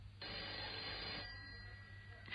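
Telephone ringing: a quiet, steady electronic ring that sounds alone for about a second, then fades into a low hum.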